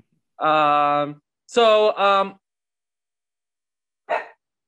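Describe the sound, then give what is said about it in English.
Dogs bark at home, four tonal barks: a long first one, two close together, then a short, fainter yelp after a pause. “sorry about my dogs if they bark too much.”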